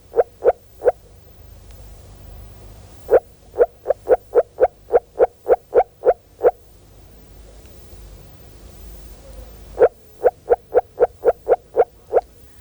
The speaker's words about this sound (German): Und bei 12 Grad Wassertemperatur bringt unser Frosch nur noch ganz kurzgereihte Rufe.